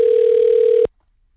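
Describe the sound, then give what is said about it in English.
Telephone dial tone heard while a call is placed to a radio contest winner: a loud, steady single-pitch hum lasting under a second that cuts off abruptly into silence. “we're going to make a phone call now to our winner”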